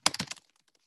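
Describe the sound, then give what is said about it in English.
A quick burst of a few crisp clicks from typing on a computer keyboard, over within half a second and followed by near silence. “So I'm going to type this here.”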